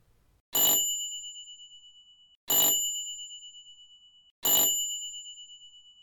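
A bright bell rings three times at an even pace, each sharp metallic strike leaving a clear ringing tone that fades away before the next.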